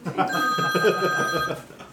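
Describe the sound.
A telephone rings for an incoming caller, a steady electronic tone holding for about a second beneath people talking.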